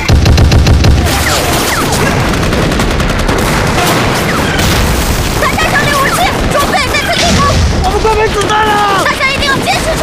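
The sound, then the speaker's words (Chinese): Artillery shelling a hilltop in battle mixed with dense, rapid gunfire and booms, loud and continuous throughout, with shouting voices rising over the din. “炮兵，把那个山头炸平！”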